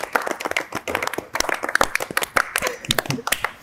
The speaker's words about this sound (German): Können wir erst noch Applaus und für die Spielleitung? Kurz Applaus, ja, auf jeden Fall.